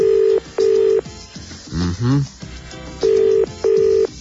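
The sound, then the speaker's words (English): Telephone keypad dialing tones as a number is entered. Four loud, steady beeps sound, two at the start and two at the end, with a short burst of voice between them. “I am dialing the number as we speak for Frank Bruno.”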